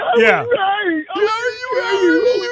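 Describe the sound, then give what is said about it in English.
Drawn-out, high-pitched whining from a human voice imitating a whiny complaint, in two long wavering phrases split by a short break. “He's whining all the time, man.”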